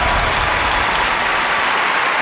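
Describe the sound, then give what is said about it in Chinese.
Steady audience applause as families are welcomed onto a competition stage, a dense, even clatter of clapping sustained throughout without a break. “让我们掌声有请吴子晴、肖军来到舞台上，有请。”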